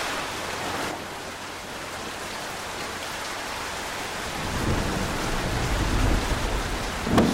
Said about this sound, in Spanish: tormenta de vuelta. Otra vez se largó.